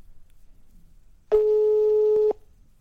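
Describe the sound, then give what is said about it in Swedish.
A telephone ringback tone sounds while someone calls a person at work: a single steady, mid-pitched tone lasting about a second, rising out of a quiet background and then stopping. “Ska vi ringa henne? Ja, hon jobbar ju, men vi testar.”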